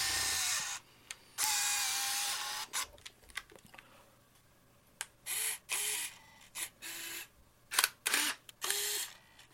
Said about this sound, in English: So, this legendary camera is the Olympus IS-1000.